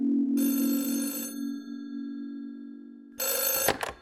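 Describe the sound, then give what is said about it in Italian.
A telephone bell rings for an incoming call in two bursts, a long ring followed after a pause by a shorter one, over a steady low hum. “Chiamata dallo Sri Lanka da parte del signor Arthur Clark.”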